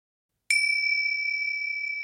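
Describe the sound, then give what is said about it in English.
A magical chime at a door rings once after silence, a bright, clear high-pitched ding that sustains evenly as a pure ringing tone until the end. “The magic chime at the door tolled, letting him know his classmate had arrived.”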